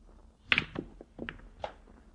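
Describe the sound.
Pool balls clack as a cue strikes them on a billiard table: a few sharp, faint knocks and clicks spaced unevenly over a couple of seconds.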